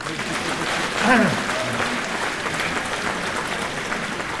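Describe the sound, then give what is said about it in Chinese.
Applause from a live crosstalk comedy audience: dense, steady clapping fills the whole clip, swelling slightly near the start, with a brief voice rising over it. “再鼓鼓掌”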